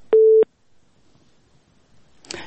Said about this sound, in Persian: تماس شنونده ما قطع شد.